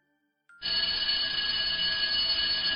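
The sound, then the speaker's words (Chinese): An electric school bell rings for the end of class: one continuous, loud, shrill ring that starts abruptly after a moment of silence and holds steady without a break to the end. “这个时候，下课铃声响起，吓得他浑身一抖。”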